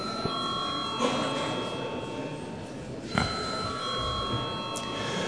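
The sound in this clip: A bell rings in a parliament chamber just before deputies vote: a steady, continuous ringing tone runs through the whole clip over a broad murmur of background noise, with a couple of brief louder knocks.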